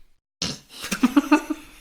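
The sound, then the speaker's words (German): A person yawns: a breathy intake of air swells into a wavering, pulsing voiced exhale that trails off, heard alone without talk. “Bist auch schon ein bisschen müde, ne? Ja, ich habe gerade gegähnt.”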